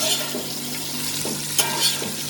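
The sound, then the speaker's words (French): Sizzling in a hot pan as a pounded mix of garlic, ginger and chili, including a small chocolate chili, is added and stirred; steady loud frying hiss with a few soft scraping stirs. “Je vais rajouter mon mélange d'épices que j'ai pilé. Il y a l'ail, le gingembre et le piment.”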